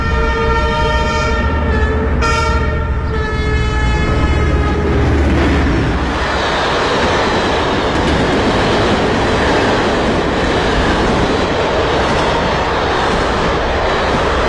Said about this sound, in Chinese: 这天他在铁路边录下了火车经过的声音。